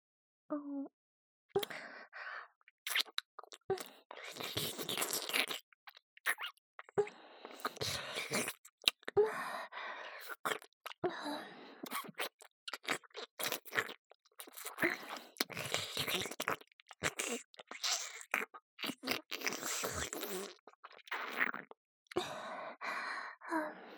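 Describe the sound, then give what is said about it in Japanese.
Wet, close licking and mouth sounds of ASMR ear licking on the right ear, soft and intimate, in many short irregular bursts separated by brief pauses, with breathy sighs. “勇者様の大好きな耳なめ、いっぱいして差し上げますからね。まずは、右耳から。”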